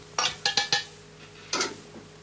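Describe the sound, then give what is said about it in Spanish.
Soup is ladled from a pot on the fire in a cabin. A ladle clinks sharply against the pot four quick times, then scrapes once more softly. The sounds are faint and stand alone. “Se acerca hasta la olla que está al fuego y sirve otro cazo.”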